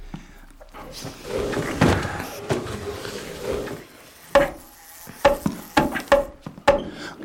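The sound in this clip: A wooden coffin lid is lifted and set in place: soft shuffling and bumping give way to a series of sharp wooden knocks and clunks, fairly loud and irregularly spaced.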